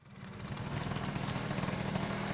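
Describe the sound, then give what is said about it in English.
Vintage Vespa scooters puttering on a gravel driveway during a rally weekend: a steady, noisy engine rumble that builds over the first half second and then holds at an even level, with no voices. “The sun sets as the vintage Vespa scooters roll into Sylvan Park, puttering to a stop in a gravel driveway to begin their rally weekend.”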